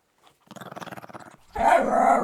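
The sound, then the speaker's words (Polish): A dog growls in a low, rhythmic rumble of rapid pulses for about a second, then a louder, harsher burst follows. “No jak te pieski się komunikują? Jak one się porozumiewają? No używają też dźwięków, tylko te dźwięki są znacznie prostsze i to nie jest odpowiednik naszych słów, bo to jest raczej warczenie,”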